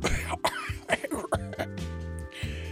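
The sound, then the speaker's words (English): A man coughs after inhaling a little spittle, a rapid series of harsh, choking coughs and throat clearing that ends in strained, voiced gasps. “My God, I almost killed myself. I inhaled a little spittle and”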